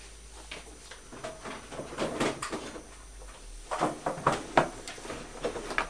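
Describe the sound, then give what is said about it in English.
A cluttered kitchen cupboard is opened with its contents shifting, giving a series of knocks, clicks and clatters that grow louder and more frequent toward the end, with no voices. “We're going to have to tidy this cupboard out, aren't we? Yeah. I don't know what's happened, but when you open the cupboard, everything comes tumbling out.”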